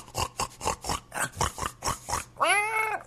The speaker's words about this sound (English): I don't know what that was. That was a pig, you know, P-I-G, the animal.